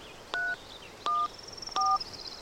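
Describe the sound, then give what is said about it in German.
Keypad tones from a mobile phone number being dialled: three short, evenly spaced electronic beeps, each a clean dual-pitched tone, over a faint steady background hiss. “Ich rufe ihn kurz mit meinem Handy an und frage ihn, ob er Zeit hat.”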